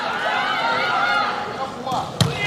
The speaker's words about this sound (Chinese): 好发球， 跟桌， 对，直线球在界内。